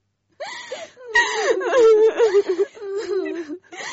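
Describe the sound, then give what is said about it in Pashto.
Someone is crying, with whimpering and wavering, strained sobs in broken bursts that are loud and heard alone. “بس دی، مه ژاړه”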